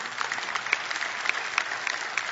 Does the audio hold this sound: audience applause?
yes